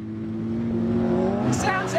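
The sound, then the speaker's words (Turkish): An off-road Baja vehicle's engine roars like a race engine, a loud, steady, rumbling growl with a slight rise toward the end, while people talk over it. “Ama Baja deneyiminin parçası bu dostum. Böyle ses çıkarmalı. Motor tam bir yarış motoru gibi ses çıkarıyor. Çok güçlü geliyor yani.”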